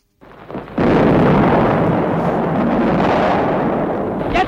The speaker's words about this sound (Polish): Teraz Szlezwik wystrzelił kolejną salwę. Zaczęła się walka o Gdańsk.